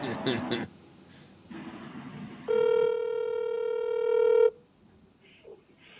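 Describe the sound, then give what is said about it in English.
A phone call rings: after brief speech and a quiet line hiss, a single long, steady, buzzing ringback tone sounds for about two seconds and then stops, followed by faint line noise. “Okay, here we go. Ring, ring, ring.”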